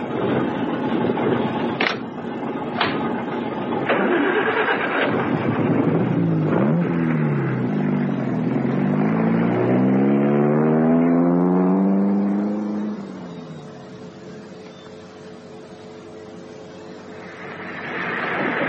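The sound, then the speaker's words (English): A car engine runs steadily, then its tone slides downward as the car slows and pulls over to the roadside, settling into a quieter low hum near the end. A few sharp clicks appear early on, with no talking. “I shall pull over here into the side and let some of the lorries pass first.”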